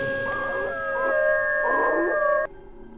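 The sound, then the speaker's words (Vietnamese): A pack of dogs howls in long, wavering, overlapping tones for about two and a half seconds, then cuts off abruptly, leaving a faint low hum. “Nói đoạn, bầy chó chu lên từng hồi.”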